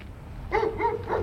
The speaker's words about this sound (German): Mein Hund ist da.